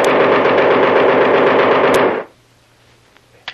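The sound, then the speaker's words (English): Gunfire in a radio drama: a loud, rapid, unbroken burst of automatic shots lasts about two seconds, then cuts off as the gun jams, leaving near silence and a faint click. “What happened? This gun is jammed, Kolo.”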